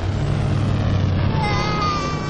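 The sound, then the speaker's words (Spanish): An armored vehicle's turbo-boosted engine starting off in an animated film scene, a loud steady rumble with a broad roar and a faint rising whine toward the end. “El blindado de Gru se pone en marcha. El fuego del turbo hace explotar el globo de un niño.”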